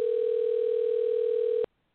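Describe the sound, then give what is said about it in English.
Telephone dial tone while placing a call to a police department, a steady, loud, single-pitch hum holding unchanged for about one and a half seconds before cutting off abruptly into silence. “I got Chicago PD on the line here. I'm calling them now.”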